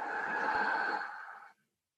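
A single deep, airy breath is drawn out at moderate loudness, holding steady for about a second and a half before trailing off into silence.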